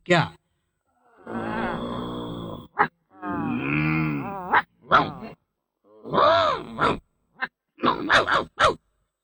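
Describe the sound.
A voice imitates two dogs growling and snarling at each other, with several rough, throaty growls separated by short pauses and ending in a quick run of clipped bursts.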